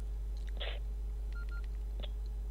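Mobile phone keypad tones sound while a text message is typed. A few short, thin beeps come at uneven intervals over a steady low hum.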